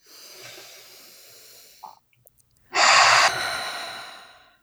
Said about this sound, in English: Deep breath.